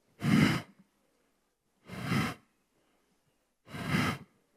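Three deep breaths drawn during a breathing exercise. Each is a loud, airy rush lasting about half a second, evenly spaced with quiet gaps between.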